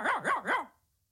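A fox terrier gives three quick, yappy barks in an even rhythm, each rising and falling in pitch, and then falls silent.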